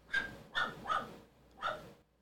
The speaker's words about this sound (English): I hope you guys can hear her barking on this.